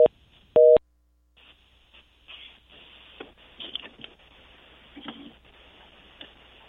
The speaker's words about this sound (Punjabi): ਲੱਗਦਾ ਜੀ ਕਾਲ ਡਰੋਪ ਹੋ ਗਈ।